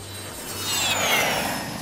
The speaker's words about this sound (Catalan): com cada dimarts pujam a l'avió de l'estudi d'IB3 Ràdio i partim a visitar qualque mig del programa que viu a fora de Balears.